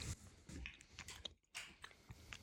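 Faint chewing of macarons with meringue shells, with soft crunchy bites and moist mastication repeating irregularly throughout.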